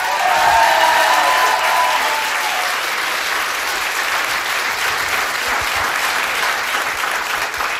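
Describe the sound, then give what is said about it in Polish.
Loud, sustained applause from a studio audience, a dense wash of clapping that holds steady for the whole stretch with no voices over it. “Tak, może teraz będą większe oklaski.”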